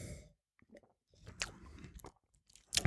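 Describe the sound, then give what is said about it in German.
Sipping a spiced alcoholic drink: a few short, wet mouth and slurping noises separated by brief silences, ending in a louder, sharper burst of sound; no voices. “also jetzt nehme ich mal einen Schluck”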